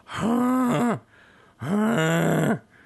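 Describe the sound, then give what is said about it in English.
A voice imitates the wheezing, groaning sound of the TARDIS time machine: two long, loud groaning phrases separated by a short pause, each ending in a downward slide. “Let's do our best TARDIS impersonation. You know that wheezing, groaning sound?”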